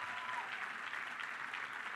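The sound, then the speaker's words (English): Audience applause at a political campaign event, a steady wash of many hands clapping, even and sustained, fairly faint throughout. “Give him a great round of applause.”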